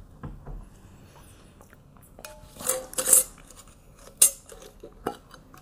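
A spoon clinks against a jar of freshly peeled garlic steeped in honey. A few bright, sharp taps are spaced unevenly over a quiet background, with no talking.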